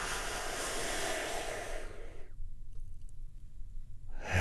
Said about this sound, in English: We do this by taking a big, deep, healing breath right now.